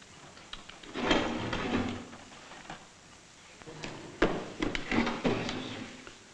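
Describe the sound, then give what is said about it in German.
A crate holding bottles of French wine being opened: two bursts of scraping, knocking handling noise, the second with sharper clicks and thuds, separated by a quieter pause. “Öffnen Sie die Kiste.”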